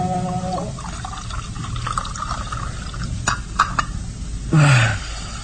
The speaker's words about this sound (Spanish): Luego, vuelve a llenar la copa.